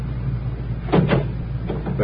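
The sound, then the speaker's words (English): A taxi door opens with a few short clunks and rattles over a steady low hum. No one speaks. “Now, would you mind opening the door?”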